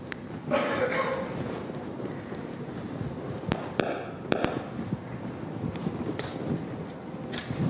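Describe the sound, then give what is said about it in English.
Amplified recording of a single brain cell firing as a woman recalls a memory, heard as a few sharp crackling clicks and pops over a steady background hiss. “You'll see that when she remembers the Simpsons, the cell starts firing. In fact, before she even speaks, when she just thinks about it.”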